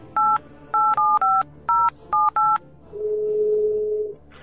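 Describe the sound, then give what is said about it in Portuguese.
Telephone keypad tones as a number is dialed: a quick run of several crisp two-tone beeps, then one long, steady mid-pitched tone. “Liga pro telefone dele então aí”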